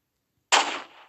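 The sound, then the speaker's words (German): A sniper rifle fires a single shot in the video game Roblox, a sudden bright crack after a moment of silence that decays quickly. “Vor allem, ich habe mir die Sniper geholt.”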